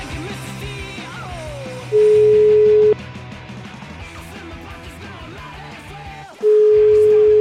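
Two long, steady ringback beeps from an outgoing phone call sound over busy background music, each about a second long, with several seconds of music alone between them.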